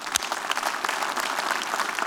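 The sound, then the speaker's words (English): Church audience applauding, with dense, steady clapping that runs fairly loud and unbroken from start to finish. “So let's all put our hands together as we welcome him today.”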